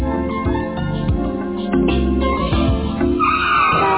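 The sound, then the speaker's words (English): Hard braking from a car with its tires skidding: a sustained, fairly loud squeal and rumble with shifting tonal whines that holds steady for the whole stretch, with no voices. “Oh, don't brake so hard.”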